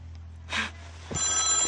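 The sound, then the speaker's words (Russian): A telephone bell rings loudly in the last half-second, cutting in sharply after a brief soft noise and a quiet lead-in. “Телефон трезвонил.”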